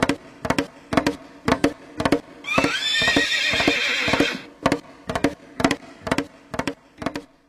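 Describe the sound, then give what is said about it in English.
A pony gives one loud, shrill, quavering whinny midway through a steady run of hollow hoof clip-clops that keep a regular beat before and after the call. “All right, he's off to the Calgary Stampede there on his on his pony, because he lives near there.”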